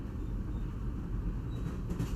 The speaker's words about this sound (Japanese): そういう時こそ列車の声を聞きましょうか。